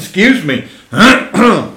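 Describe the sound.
Throat clearing from harvest dust caught in the throat: three rough, voiced rasps in quick succession, loud and close together within under two seconds.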